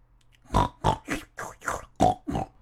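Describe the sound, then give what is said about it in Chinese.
Piglets grunt as they nurse from their mother sow, giving a run of seven short, throaty grunts at a fairly even rhythm, clear and alone. “咦，小猪们开始吃妈妈的奶了。”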